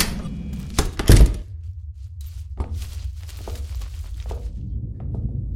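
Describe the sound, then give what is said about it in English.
A machine in an old arcade makes a sudden loud clattering burst of knocks, followed by scattered thumps and clicks over a low hum. “What was that? One of the arcade machines made a noise.”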